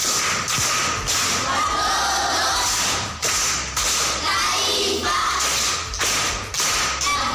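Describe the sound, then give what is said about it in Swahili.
Sharp, loud hand claps for a contestant at a primary school quiz for schoolchildren, with a few separate bursts spread across the stretch. “Makofi kwa mjomba.”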